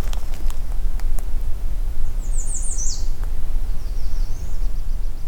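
An American redstart sings on an overcast morning: two short runs of high, thin, rapid notes, the first clearer and ending in a downslurred note, the second fainter, over a steady low rumble with a few scattered clicks.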